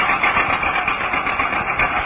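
An old car engine running after a fault in the magneto wiring was fixed: a steady, rough, loud mechanical rumble with a busy knocking texture throughout, no voices.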